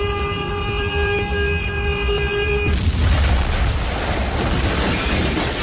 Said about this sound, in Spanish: Estalla apocalíptica sobre la escalinata de la catedral. Los vidrios del imponente rosetón rompen y vuelan sobre la vereda de calle 14. A esa explosión le siguen otras.